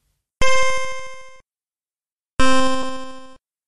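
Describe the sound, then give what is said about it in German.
Two video game sound effects marking the end-of-round score and population display: bright, ringing harmonic chimes, each lasting about a second and fading, separated by a second of silence. “man hört dann nochmal zwei Soundeffekte und die untermalen die Einblendung der erspielten Punktzahl und der aktuellen Bevölkerungsgröße.”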